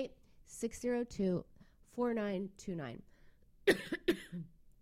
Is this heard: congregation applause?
no